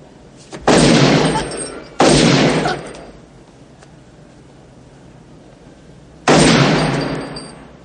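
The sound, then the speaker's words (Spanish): Three gunshots from the 1990 action film The Rookie: two sharp, loud blasts about a second apart, each with a decaying tail, then a long quiet gap before a third equally loud shot. “David acaba con la vida de la mujer de dos disparos en el pecho y uno en la frente.”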